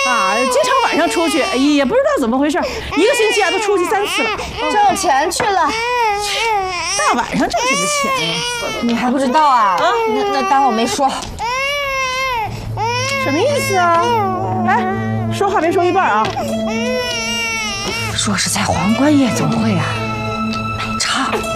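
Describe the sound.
An infant cries loudly in wavering, wailing bursts, while an adult talks over it in a soothing tone; a low steady hum joins in the second half.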